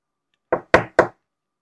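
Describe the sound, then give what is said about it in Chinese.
A duckling knocks on a door in a children's story: three sharp, evenly spaced raps, each decaying quickly, alone against silence. “小鸭在敲门。”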